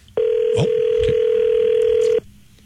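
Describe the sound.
A telephone line sounds for a call as one steady, loud, mid-pitched tone that holds for about two seconds and then cuts off sharply, with faint murmuring voices underneath.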